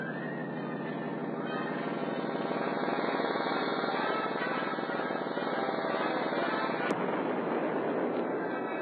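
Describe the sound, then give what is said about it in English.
Laser devices fire at a deuterium cylinder as their circuits overload: a loud, unbroken electrical buzzing drone holds steady, then one sharp crack snaps through it near the end. “I am now activating the lasers. Watch the deuterium cylinder and... Something is wrong. The circuits are overloading.”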